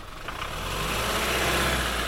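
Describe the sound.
Truck engine running while driving up a bumpy valley road, a steady low rumble with broad road noise that swells slightly in the first half-second, then holds level and loud throughout, with no voices.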